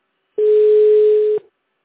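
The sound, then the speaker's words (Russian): A telephone ringback tone sounds while a call waits to be answered: one steady, mid-pitched electronic tone holds for about a second, then stops, leaving silence. “Трубку еще не берет.”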